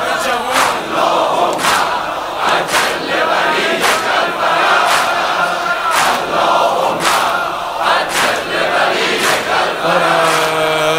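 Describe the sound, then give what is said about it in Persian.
A large crowd of young people chants in unison, loud and driving, with regularly spaced accented shouts that keep a steady rhythm throughout. “این صدای این جمعیت این همه جوون”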